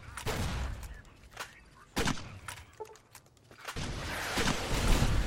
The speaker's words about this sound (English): that was a Nightkin sniper who was trying to blow us up with a rocket launcher, or missile launcher.